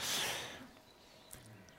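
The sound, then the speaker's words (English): A deep breath drawn in audibly, a broad airy rush that is loudest at the start and fades within about half a second, leaving faint quiet noise. “let's take a good deep breath”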